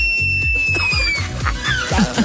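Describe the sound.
A female sloth screams, a thin, high-pitched whistling tone that slides slowly downward and is followed by a shorter rising call, over a busy background of low, regularly repeated pulses.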